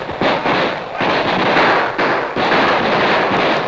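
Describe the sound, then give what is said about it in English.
Gunfire exchanged between outlaws and an advancing posse: a few sharp, loud bangs break through a dense wash of rough noise, spaced irregularly, with no voices. “Like a well-drilled infantry team, the outlaws suddenly dropped to their knees, drew their guns, and fired, to be answered almost immediately by the advancing posse.”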